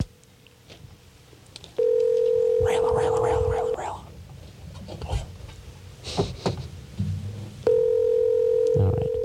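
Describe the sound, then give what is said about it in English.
Telephone tones as a number is called: a steady electronic tone sounds twice, each for about two seconds, with clicks and muffled voices in between. “Calling Judith here.”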